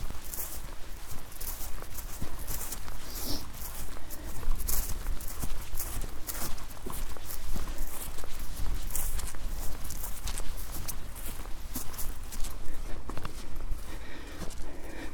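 Footsteps walk along a muddy, rutted footpath: many soft, irregular thudding steps in a steady run from start to finish, with no talk.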